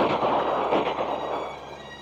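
Gunfire from a courtyard gate: a dense, crackling burst of many rapid, overlapping shots that stays loud throughout and eases slightly toward the end.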